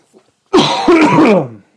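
Throat clearing and coughing from someone with something stuck in the throat: one sustained, rasping, effortful burst, preceded by a faint short catch.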